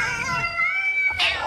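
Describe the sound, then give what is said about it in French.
Cats meow in drawn-out, high, wavering cries, with one long call followed by a sharper, brighter meow near the end. “Qu'est-ce que c'est, là, là? C'est des chats, voyons.”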